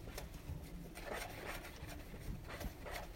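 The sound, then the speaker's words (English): Faint rasping scrapes as flour is scraped off the bottom of a mixing bowl, a few gritty strokes in a steady run. “Just gotta scrape this flour off the bottom.”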